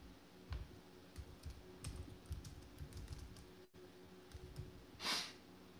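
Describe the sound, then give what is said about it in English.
Typing on a computer keyboard: a steady run of faint, irregular key clicks, with a brief louder burst near the end. “I can type that.”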